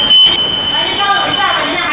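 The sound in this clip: A shop door security alarm goes off as a steady, continuous high-pitched electronic tone that holds unbroken throughout, with a voice sounding over it.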